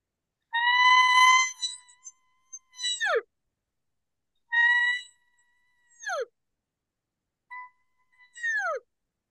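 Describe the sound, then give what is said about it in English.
A reed buzzes as breath is hissed steadily through it, giving three reedy, harmonic-rich calls. Each is a sustained nasal buzz that ends in a quick downward squeal, separated by silent gaps. “I'll just put it in and I'll start hissing, and then the reed will automatically just start making noise.”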